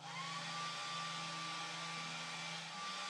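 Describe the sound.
A hair dryer blows steadily while drying someone's hair, giving a quiet, continuous whirring rush with a thin, high, even whine over a low hum. No talking.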